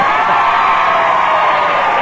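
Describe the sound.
Studio audience on a game show cheering and whooping, a loud, steady wall of crowd noise with no break for its whole two seconds.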